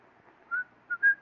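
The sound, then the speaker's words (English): A person whistles a tune in a cheerful mood: three clear, high whistled notes, the last one the longest, set against a faint, quiet background. “I notice you whistle that tune when things are going well.”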